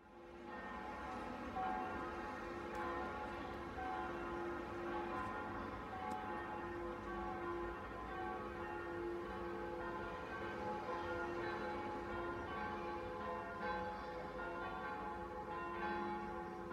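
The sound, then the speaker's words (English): Church bells ring out across Paris, France, in celebration of an election result, their sustained tones blending into a faint, continuous wash for about seventeen seconds without clear breaks. “the sound of church bells ringing in Paris, France, when they heard that Joe Biden had won.”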